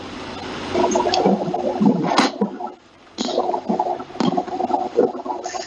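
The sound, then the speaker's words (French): Running water in a home: a broad gushing, splashing rush that rises and falls, drops away briefly near the middle, then resumes with gurgling bursts. “Il y a de l'eau qui coule chez la soeur Ophélie, c'est pour ça que vous entendez ces bruits-là.”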